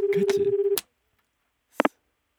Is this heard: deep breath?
no

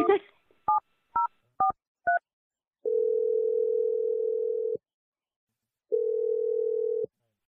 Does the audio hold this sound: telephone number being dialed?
yes

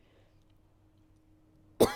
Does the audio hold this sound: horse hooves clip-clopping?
no

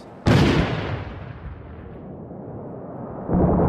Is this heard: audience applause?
no

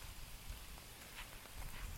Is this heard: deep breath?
no

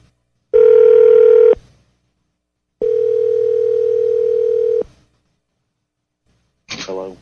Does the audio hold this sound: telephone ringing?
yes

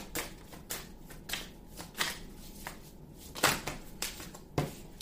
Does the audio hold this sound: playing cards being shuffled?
yes

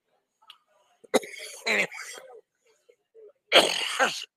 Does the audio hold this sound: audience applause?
no

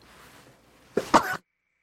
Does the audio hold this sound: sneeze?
yes

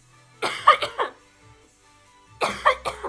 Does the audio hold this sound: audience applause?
no

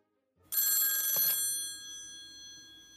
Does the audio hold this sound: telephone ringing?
yes

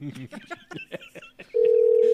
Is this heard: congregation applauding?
no

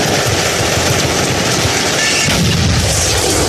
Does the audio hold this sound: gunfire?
yes

